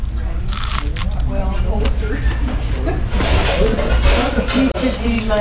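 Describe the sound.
Crispy fried chicken crunches loudly as it is bitten into, with a run of crackling crunches and chewing over a steady background.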